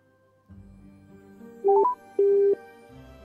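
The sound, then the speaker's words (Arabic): A phone-in caller's line drops on a children's quiz show, leaving a short rising series of electronic beeps followed by two steady, mid-pitched disconnect tones over quiet line hiss. “فصل الخط تاني.”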